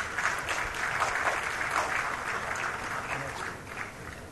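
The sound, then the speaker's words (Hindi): Audience applause at a national handloom award ceremony as a weaving-category winner is welcomed: steady, dense clapping from many hands that continues evenly throughout and eases off slightly at the end. “जोरदार तालियों से स्वागत कीजिए”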